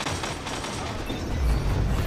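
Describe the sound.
Gunfire from the Crimson gun in Destiny 2 during a Control match, a dense, continuous barrage of shots with a steady, loud crackle and low booms throughout.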